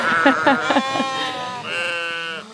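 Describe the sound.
Pregnant ewe carrying twins bleating loudly: a few short broken cries followed by one long, wavering bleat.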